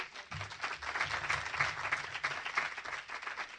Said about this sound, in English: Can we give them a hand